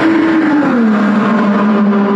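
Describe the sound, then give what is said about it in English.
An IndyCar race car, the 2028 test car, drives on the Indianapolis Motor Speedway oval near Turn 2. Its loud, continuous high-revving engine drone dips slightly in pitch, then holds steady, with no talking. “Seeing and hearing IndyCar driver Alexander Rossi testing the 2028 IndyCar on the IMS Oval.”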